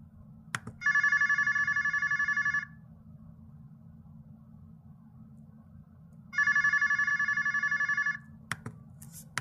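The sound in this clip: A telephone rings in two long bursts of trilling tones separated by a few seconds of quiet, over a steady low hum, with short clicks near the start and end.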